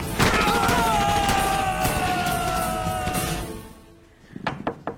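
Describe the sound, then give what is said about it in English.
Gunfire in a shootout: a few sharp, loud cracks come in quick succession near the end, after a long stretch of wavering, falling tone over rough noise. “I phoned as soon as I heard the shooting.”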